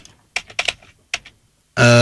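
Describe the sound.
Computer clicking, a few quick dry taps in two short clusters separated by silence, followed by a sudden loud, sustained tonal burst.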